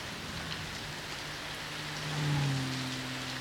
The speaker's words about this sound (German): Es regnet so merkwürdig. So rhythmisch ringsherum. Hören Sie? Wie Musik.